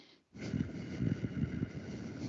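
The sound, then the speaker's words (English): A voice imitates a back-of-the-throat, T-Rex style growl: after a brief silence comes a low, raspy, rumbling growl held for about two seconds with rough pulsing texture. “I don't know if you heard it at all because, again, my throat's going crazy, but that just back of the throat, almost T-Rex style growl”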